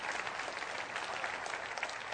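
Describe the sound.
A French-speaking church audience applauds during a Sunday service, a steady, fairly quiet stretch of continuous clapping with no clear breaks.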